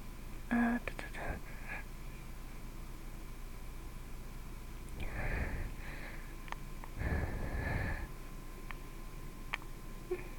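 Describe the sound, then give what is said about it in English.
Heavy breathing into a microphone: two long, rough, gusty exhalations rise above a steady low hiss, with some quiet whispering at the start. “I'm sorry I always breathe on the mic, guys. I can't seem to control myself when I get worked up.”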